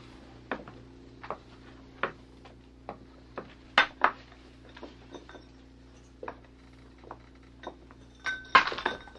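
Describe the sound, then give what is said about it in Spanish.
Clinking, clicking and rattling as framed pictures are torn down from a wall: many short, sharp knocks at irregular intervals, ending in a louder, denser cluster. “no hagas tanto ruido arrancando esas láminas de la pared.”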